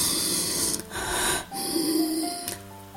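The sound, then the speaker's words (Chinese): Labored breathing through a nose obstructed by enlarged turbinates: a few harsh, snorting inhalations with a rough hiss, the later ones carrying a thin whistling tone. “而且这种吸气困难，你听听你会很难受”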